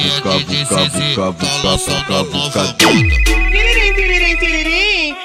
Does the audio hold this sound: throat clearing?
no